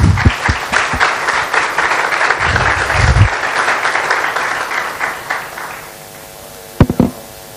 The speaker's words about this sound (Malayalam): അദ്ദേഹത്തെ നമുക്ക് കൈയടിച്ച് സ്വാഗതം ചെയ്യാം.